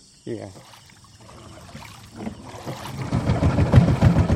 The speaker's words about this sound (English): steers a wooden outboard down his canal toward Gaung River, cutting through water brown from the tannins in the peat.